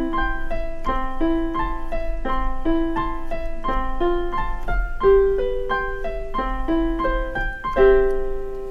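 Piano duet in which a beginner plays a simple, repeating melody over a lower accompaniment, with steady, evenly spaced notes throughout.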